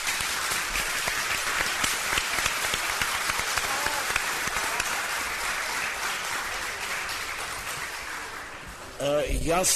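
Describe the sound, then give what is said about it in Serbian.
Audience applause at a book presentation, a thick, sustained roar of many clapping hands that runs steadily and eases slightly before a voice begins speaking at the very end. “gospođi Branki odmah na početku uputimo na aplauz”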